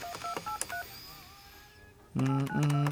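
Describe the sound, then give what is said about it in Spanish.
Touch-tone beeps as a telephone number is dialed: a quick series of short, high electronic tones, then a faint thin tone, and finally two louder, longer buzzing tones. “Voy con Sharis aquí a ver si contesta. Es más, voy a salir de esta línea para que aquí le aparezca un número.”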